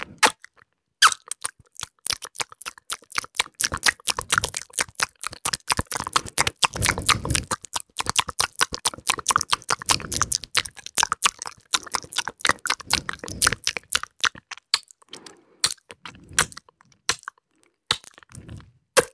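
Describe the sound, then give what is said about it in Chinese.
Cake is eaten in many loud, crisp crunching bites and chews that come in quick, irregular bursts. The crunching runs throughout with brief pauses and no talking. “蛋糕好吃。”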